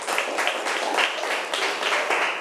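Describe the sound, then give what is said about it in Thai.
Classroom applause as students clap for a classmate who answered a question: many quick, dense claps blending into a steady patter of moderate loudness throughout. “ปรบมือให้เพื่อนหน่อยค่ะ”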